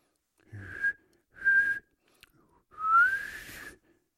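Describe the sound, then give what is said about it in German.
A boy whistles three clear notes: two short, steady tones with a pause between them, then a longer third note that rises in pitch and carries on before stopping. “Du kannst schon pfeifen. Darf ich es noch einmal hören?”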